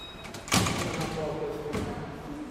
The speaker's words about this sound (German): Er wechselt ein paar Worte mit der Dame am Eingang, dann öffnet sich die Schranke.